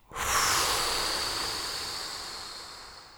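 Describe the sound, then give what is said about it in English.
A deep breath blown out forcefully through the mouth in a guided breathing exercise: one long breathy hiss that starts abruptly, peaks early, then slowly fades over about three seconds. “Take a big inhale and blow.”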